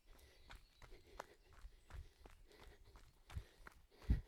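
Footsteps of a person walking uphill outdoors during a beginner run-walk session. Many faint, evenly spaced steps follow a steady rhythm, with a slightly louder thud near the end.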